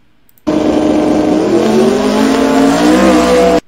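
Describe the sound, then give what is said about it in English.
A Honda S2000 race car accelerates hard during a race, its engine giving a loud, unbroken roar whose pitch climbs steadily for about three seconds before cutting off abruptly. “And then I believe round one against the Honda S2000. That was a real clear-cut victory.”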